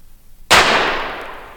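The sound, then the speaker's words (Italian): A single sharp gunshot from a pistol cracks out of near-silence, then leaves a long, fading tail of noise. “Spara. Spara. Ha sparato davvero.”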